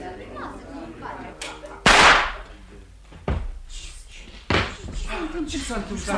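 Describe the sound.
A revolver fires in a radio drama: one sharp, loud bang cuts through, followed later by two more heavy knocks, while people talk throughout.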